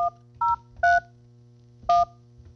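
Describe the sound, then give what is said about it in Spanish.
Telephone keypad tones dial an extension for a call transfer: four short, bright, two-pitch beeps, the first three in quick succession and the last after a pause, over a faint steady hum. “Ah, yo quiero Línea de Fe, pues déjame marcar Línea de Fe 107 y 106. Déjeme transferirle un momentito.”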